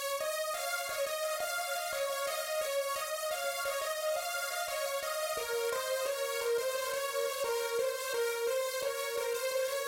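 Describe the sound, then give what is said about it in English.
A synth arpeggio plays as a four-bar loop, cycling through two chords with a long delay trailing each note. Its bright tones run steadily and evenly throughout, with no talking over it. “And this is just a little arpeggio that goes throughout the entire song. It's a 4-bar loop and you'll hear it a lot in the song.”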